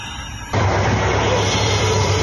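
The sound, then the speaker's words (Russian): A quadcopter drone flies overhead in a combat zone. Its steady, loud droning hum with low tonal bands cuts in abruptly after about half a second and holds to the end. “Вот он. Коптер опять взлетел.”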